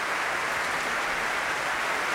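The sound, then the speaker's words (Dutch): Applause from a concert audience for the early-music group Ensemble Correspondance after their encore: a dense, steady wash of clapping that holds at an even level throughout with no voices on top. “Opnieuw groot applaus voor dit muziekgezelschap.”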